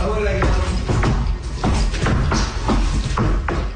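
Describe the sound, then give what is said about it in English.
Heavy stomping from a moose that broke into a house in the Cité du Golf district of Trois-Rivières: a series of dull thumps and scuffs on the floor, spaced roughly half a second apart over a continuous background. “That was the sound of a moose stomping on the floor after it broke into a man's house.”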